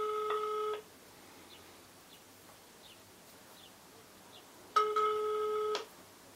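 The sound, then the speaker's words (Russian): Ringback tone of an outgoing phone call: two steady, buzzy tone bursts, each about a second long, separated by a quiet pause of roughly four seconds, heard alone with no talk. “сейчас буду ему перезванивать”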